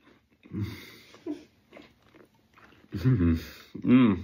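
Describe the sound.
Chewing of oat porridge with a bit of apple, with a few soft, scattered chewing and biting sounds, followed by louder voiced murmurs near the end.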